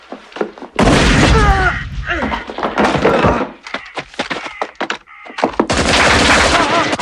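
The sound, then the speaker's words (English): Gunfire and a grenade in an audio drama as a group of men playing Trivial Pursuit are gunned down; heavy booming bursts open and close the passage, with agitated voices and sharp thuds in between. “The Trivial Pursuit players fall. A grenade is rolled in. The last man is gunned down.”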